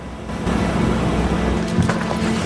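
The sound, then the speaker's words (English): A Humvee convoy drives down a deserted town street, its steady, low engine rumble and road noise swelling louder after a moment and holding on. “The Humvee convoy heads down a deserted town street, lights burning brightly in some of the shop windows.”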